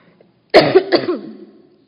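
A single cough to clear a tickly throat: a sharp burst that runs into a rasping, voiced rumble and fades out over about a second.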